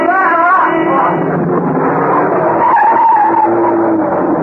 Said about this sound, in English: The van, coming round the corner, skidded as it tried to avoid him.